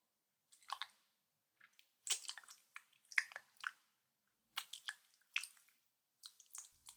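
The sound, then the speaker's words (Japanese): Wet chewing and biting sounds come in many short, soft, squishy bursts with clicks, separated by brief silences, with no talk. “少し強く噛んでも。”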